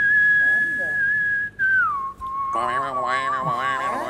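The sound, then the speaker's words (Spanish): A person whistles a clean, steady, sustained tone that slides down in pitch, then shifts to a lower, buzzier note with a slight wavering, loud and unaccompanied. “Cuando se silba bien, es cuando se hace... Cuidado.”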